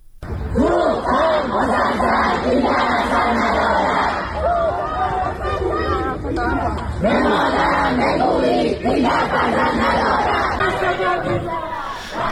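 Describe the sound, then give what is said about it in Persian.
Students protesting at Allameh Tabatabai University in Tehran chant slogans as a loud crowd, massed shouting over a dense babble of voices that stays intense and continuous. “این صدای اعتراض دانشجویان دانشگاه علامه طباطبایی در تهران است.”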